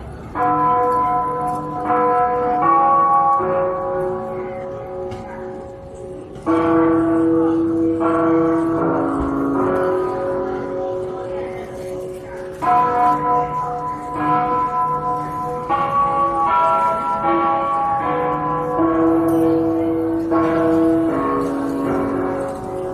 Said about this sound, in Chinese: 它曾出现在北京火车站整点报时后的钟声里，